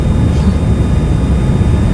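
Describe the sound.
A jet airplane engine in flight, heard as a steady, loud, low-heavy roar that stays constant throughout with no changes and no voices.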